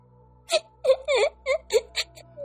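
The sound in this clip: A young girl cries inside a temple, letting out a string of short, high, tearful sobbing and whimpering bursts broken by brief catches of breath, fairly loud and uneven in rhythm.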